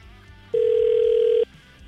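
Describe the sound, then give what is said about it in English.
Ringing tone of an outgoing telephone call: a single loud, steady, mid-pitched electronic tone lasting under a second over a quiet background, with no talk. “So we're gonna call Ben now. We have his phone number.”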